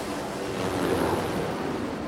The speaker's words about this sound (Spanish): Las olas chocan contra su cuerpo que está junto al peñasco.